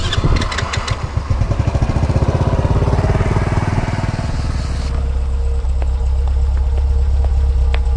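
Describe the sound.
Motorcycle engine running loud and continuous, with a low, rapid putter of pulses in the first half that settles into a steadier, even drone in the second half.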